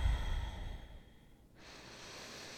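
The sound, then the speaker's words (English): A single slow, deep breath during a guided meditation. The breath is strong and low at first, then fades into a soft hiss, with no talk. “Take a few nice deep breaths”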